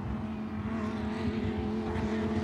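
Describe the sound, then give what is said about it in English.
Lamborghini race cars running behind the safety car, their engines forming a steady, even drone with no distinct passes or revving, holding a constant level throughout. “Cars behind the safety car right now.”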